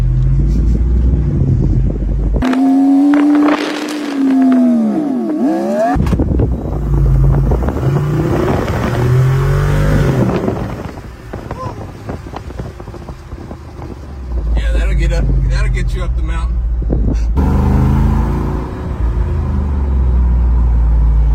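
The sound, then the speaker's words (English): A vehicle with its hard top taken off is driven, giving a steady, loud engine drone with heavy wind buffeting on the microphone and a few shifts in tone along the way. “It's got the hard top. Boom. off just like that. Now that we're in the inside, let's take it for a spin. Spin, spin, spin.”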